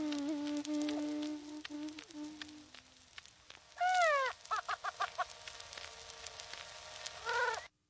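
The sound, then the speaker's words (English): A greater prairie chicken, or pinnated grouse, calls: a low hollow hooting tone, then a quieter gap, then many short cackling and whining calls in uneven bursts, all fairly faint and without voices. “Here, though, is a pinnated grouse, or sometimes known as a prairie chicken. Here is the sound of the bird.”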